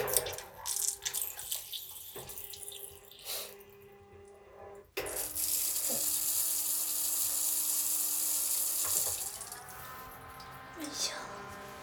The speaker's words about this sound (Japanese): よいしょ、ウォシュレットします。